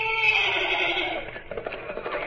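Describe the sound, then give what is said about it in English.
A horse, a mare, neighs just outside a door in a long, raspy, breathy whinny that stays fairly loud across its length before trailing off into rougher, fluttering breaths. “The horse, John. She's just outside the door. Run for it.”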